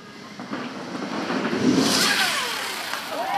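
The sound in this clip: An electric motorcycle revs during a demonstration with a thin electric whine that swells and bends in pitch over a broad rushing noise. It grows louder toward the end.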